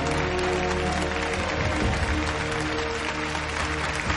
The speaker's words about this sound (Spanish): En una mesa el general Shao se levanta y aplaude. Docenas de soldados lo imitan.